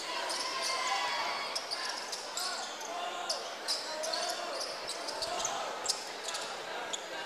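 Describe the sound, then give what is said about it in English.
Basketball dribbling on a gym floor during a high school game, with a few light bounces and sneaker squeaks set against a steady, noisy crowd murmur. “Now dribbles to the big M on the center of the floor.”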